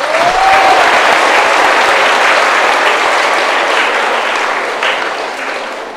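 Enthusiastic audience applause fills the whole stretch: loud, dense clapping that holds steady, then thins slightly toward the end.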